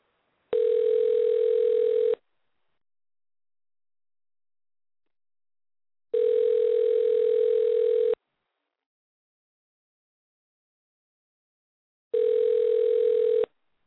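Ringback tone of an outgoing telephone call before it goes to voicemail: three identical steady rings of about two seconds each, separated by long silent gaps.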